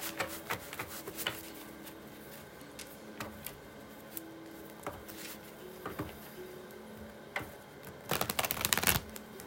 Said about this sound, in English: If you hear anything in the background, it's of course me shuffling the cards